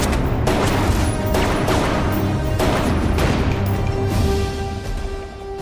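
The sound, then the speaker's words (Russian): Gunshots in a film shootout as a gray-haired man fires at his target: several sharp, loud, irregular blasts with ringing tails, growing quieter toward the end. “Седой черноволосый мужчина стреляет по карте.”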